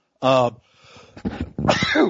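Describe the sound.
A person sneezes, with a short loud voiced burst followed by breathy, noisy exhalations and vocal sounds.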